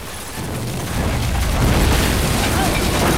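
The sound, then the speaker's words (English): Bombs exploding at night and destroying an airstrip that crumbles into a ravine: a deep rumble swells after about a second into a loud, sustained roar of blasts and collapsing rock. “The second man grabs the detonator and sets off the remaining two bombs.”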